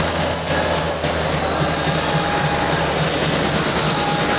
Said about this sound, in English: at the spinning rotor blades against the sky thick with grey clouds.